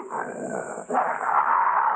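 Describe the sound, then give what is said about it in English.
A big dog growls low and rough in two stretches split by a brief pause, and the second stretch is louder than the first. “That's the biggest dog I ever seen.”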